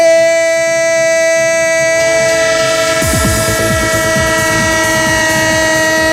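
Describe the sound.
A train sound effect: a loud, sustained horn-like tone holds for the first half. Then the rhythmic clickety-clack of wheels on rails comes in and runs to the end beneath the continuing tone, with no voices.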